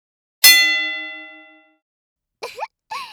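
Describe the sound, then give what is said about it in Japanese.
A gong signals the start of a match with one loud metallic strike whose bright, ringing tone fades over about a second. Two brief vocal sounds follow after a pause. “ゴングは勝負の始まりですよ。”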